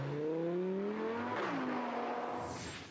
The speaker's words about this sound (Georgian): მილიონერებს ის მხოლოდ სისწრაფის გამო კი არ მოსწონთ ასევე, მისი უნიკალური ომახიანი ბღუილის გამო უყვართ. ეს პატარა მანქანა ნამდვილი მონსტრივით ხმოის.